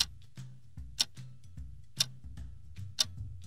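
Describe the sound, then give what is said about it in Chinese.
A wristwatch ticks faintly in a quiet setting, with three sharper clicks at steady one-second intervals and softer ticks between them. “滴答滴答的声音，循着声音就找到他了”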